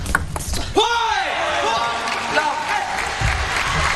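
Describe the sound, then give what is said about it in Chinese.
A table tennis ball is struck in a forehand serve by a Japanese player during a China-Japan men's team final. A quick, sharp tap is followed by voices and applause. “户上隼辅也是变了一个发球，站在中间正手发了。”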